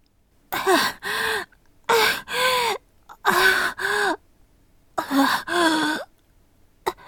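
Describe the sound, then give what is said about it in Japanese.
Gagging from a person pressing a finger on their tongue: four pairs of short, loud, voiced heaves with strained, wavering pitch, separated by brief silences. “指で舌を押すとか、むせるに決まってるであります。”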